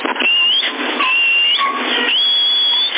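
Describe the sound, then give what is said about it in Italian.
A person whistles over a CB radio link, a thin high tone held in long stretches that glide slightly upward, sitting inside loud, steady, band-limited radio hiss. “Prova a fischiare”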